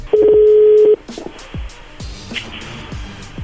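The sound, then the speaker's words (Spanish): A telephone keypad tone sounds while a number is redialed after a dropped call. One steady, loud beep lasts just under a second, followed by quiet line noise and a few low thumps. “ya te cortaron. Márcale de nuevo.”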